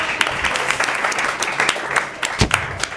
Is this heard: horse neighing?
no

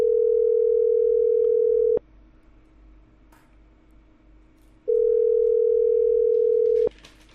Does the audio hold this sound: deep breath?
no

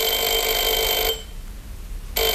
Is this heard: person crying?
no

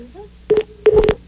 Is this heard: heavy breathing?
no

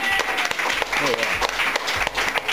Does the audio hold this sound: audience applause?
yes

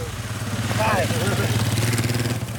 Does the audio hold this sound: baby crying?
no

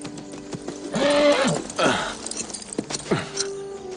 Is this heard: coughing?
no

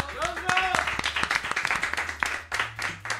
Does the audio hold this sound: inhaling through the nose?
no

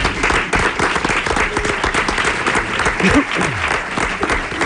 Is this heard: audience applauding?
yes

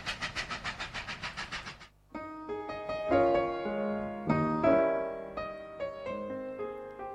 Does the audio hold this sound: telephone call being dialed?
no

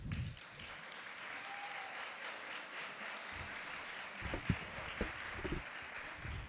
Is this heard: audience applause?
yes

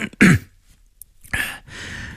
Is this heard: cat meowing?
no

